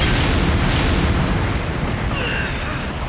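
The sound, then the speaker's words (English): Bombs exploding and blowing apart a mobile suit's shield, a loud, dense roar of blast noise sustained throughout without a break. “My shield has just been... It's been blown apart! Yes, I see now! They've flown around Gundam and planted bombs on me!”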